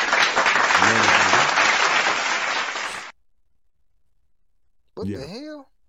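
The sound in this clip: Loud, dense applause from a crowd fills the first three seconds, then cuts off abruptly into silence before a brief voice sounds near the end.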